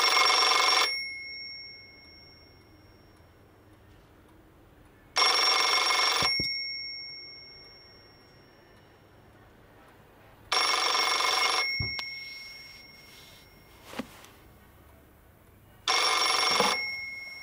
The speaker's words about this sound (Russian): Звонит телефон